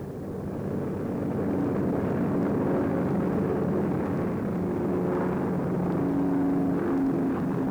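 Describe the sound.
Steady, loud engine roar of a small aircraft landing on a short, uneven airstrip with a dent midway down the runway. The heavy rumble and drone run unbroken from start to end.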